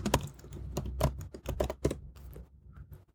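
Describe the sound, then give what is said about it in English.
Keys clatter on a computer keyboard as someone types a search, with many quick, irregular clicks that thin out toward the end. “Oh, I forgot to type book. Sarah Silverman book.”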